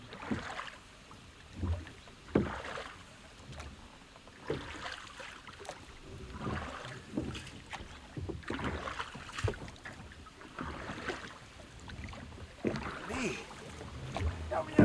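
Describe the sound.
Oars dip and pull as a rowing boat is rowed along a river branch, a steady run of splashing strokes and dripping water over a soft, continuous wash.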